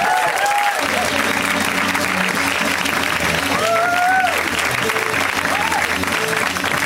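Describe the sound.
An audience gives loud, continuous applause to a comedian, the clapping dense and even from start to finish, with a few cheers over it.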